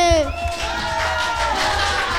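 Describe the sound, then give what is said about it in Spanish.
Crowd cheering and applause for a performing group. Loud, dense noise runs throughout, with high, sliding whoops and shouts rising above it at the start. “Muy buen aplauso para el Málate. Ay, sí. Por favor, un ratito de enfoque a los chicos cuando digo, un aplauso para el Málate.”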